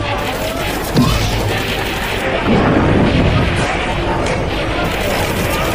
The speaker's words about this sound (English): They're exploding as soon as we hit them.